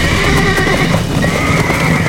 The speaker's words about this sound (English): The Tennesseans began putting the captured horses into a run, but it was futile.